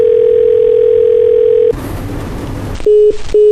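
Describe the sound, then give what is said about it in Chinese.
Telephone tones from a call that goes unanswered: a steady, loud mid-pitched tone, then a burst of noisy rustle, then two short beeps of a busy signal at the end. “忙音。 还是没人接”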